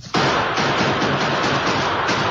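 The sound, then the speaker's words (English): Gunfire from repeating rifles, a sound effect in a radio drama shootout, erupts as a dense, loud crackling barrage with a rapid run of sharp shots cutting through continuous noise. “Bullets from the guns of the Lone Ranger and Tonto streaked past Jim and Duke. Others hit the ground near their feet. One shot smashed Jim's rifle.”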